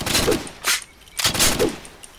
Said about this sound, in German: Die Pistole ist wirklich diejenige, die wirklich am schnellsten leer geht.